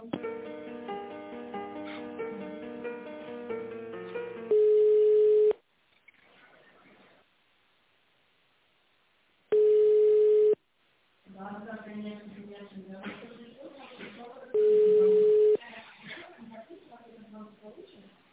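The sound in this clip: Telephone ringback tone while a call is transferred from accounting to a secretary: three steady tones of about one second each, spaced roughly five seconds apart, with talk in between.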